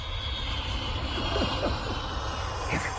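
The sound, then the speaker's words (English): Jet airliner passing overhead on a flight path near London Airport, a steady, broad low roar that holds at an even level throughout. “This complex is right under one of London Airport's flight paths. I can't stand those things. The jet engine is third on my list of retrograde creations”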